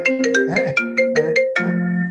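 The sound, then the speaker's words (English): A phone ringtone that also sounds through a computer plays a bright melodic run of electronic tones, loud and steady, with no talk over it. “I just turned that off. I hate that when my phone rings. It pulls up on my computer.”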